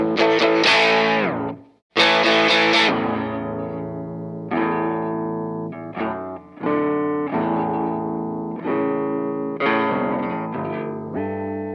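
Electric guitar, a 1966 Fender Stratocaster played through distortion and a whammy pedal: loud, gritty, sustained chords and ringing notes with a brief silence near the start, a few sharp re-attacks and some shifting pitch, with no voices.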